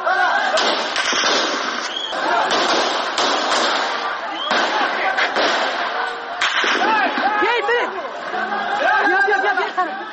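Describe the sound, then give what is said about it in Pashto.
Gunshots fired at a street protest in Kabul, captured on a live phone stream: several sharp bangs break through loud, continuous crowd chatter and shouting. “دوی اعتراض په فیسبوک باندې ژوندۍ خپراوه چیرې چې د ډز غوږونه هم اورېدل کیږي.”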